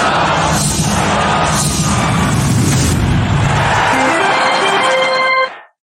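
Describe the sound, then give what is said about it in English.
An old intro sting plays: a loud, dense wash of booming, crashing noise with a steady roar. Near the end a few stepped tones climb in pitch before everything cuts off abruptly. “And it's important that we play the old intro.”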